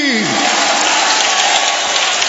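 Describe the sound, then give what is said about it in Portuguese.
Loud, dense applause from a church audience during a service, a continuous wash of clapping for the whole stretch, with a voice briefly heard at the start. “Pode aplaudir ao Senhor. Pode dar glória a Deus aí.”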